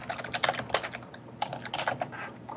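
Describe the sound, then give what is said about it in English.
Typing on a computer keyboard as a message goes into a chat: many quick, irregular clicks in short bursts with brief pauses, fairly loud and alone. “Just to be safe, I'm gonna compromise and just type it in the chat. A lot. Here I go.”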